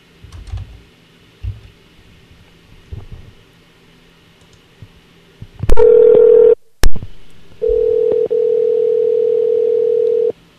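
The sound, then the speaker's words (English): A telephone dial tone, heard as a loud, steady, low-pitched hum that is cut off by a sharp click, then returns and holds. A few soft handling knocks come before it, with no talking. “I'm going to try to get him on the phone”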